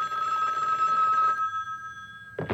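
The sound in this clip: A telephone bell rings in a single bright, rattling burst of about a second and a half, then its tone fades out quickly.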